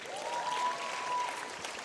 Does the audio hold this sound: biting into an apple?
no